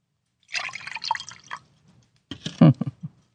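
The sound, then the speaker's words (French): A drink being poured, liquid splashing and gurgling in two bursts of uneven, bubbly sound with a short gap between them, the second burst louder. “Qu'on me verse encore de cette boisson qui soutient mon feu à moi.”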